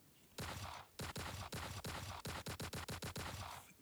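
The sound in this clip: Gunfire sound effect: rapid, sharp, loud bursts repeat many times, spaced unevenly at first and then quickening into a tight run of shots before fading out.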